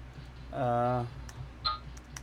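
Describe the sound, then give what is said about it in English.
Typing on a computer keyboard: a few sparse, faint clicks follow a brief voice, against a low background hum. “Okay, so Ugly. Well, I gotta bring on my fucking keyboard over here.”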